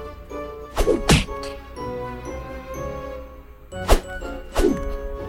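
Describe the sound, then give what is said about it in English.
Heavy punch impacts from a super punch hitting enemies in an arcade video game: four loud thwacks in two pairs, with ringing game tones sustaining underneath between the hits. “Whoa, I got some type of super punch.”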